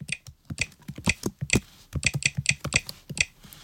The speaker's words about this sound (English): I'll type a password.